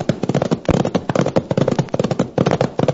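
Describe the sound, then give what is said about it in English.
Horses gallop, a rider's pony among them, and their hooves make a loud, fast, dense clatter of overlapping beats that runs without pause from start to finish. “All right, come on, rattle up your pony and see if we can't get down there and tell them. Come on, you broken-down, benighted bundle of buzzard bait. Run!”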